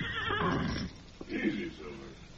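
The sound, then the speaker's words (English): Horses neighing loudly, with a long, shrill whinny followed by a shorter second whinny after a brief pause. “Someone's nearby, Tonto, the way the horses are acting.”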